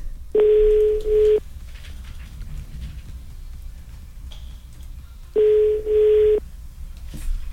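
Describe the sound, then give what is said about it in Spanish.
Telephone tones while a number is being called: two steady, loud tones of about one second each, separated by a long stretch of low hiss. “Marcando”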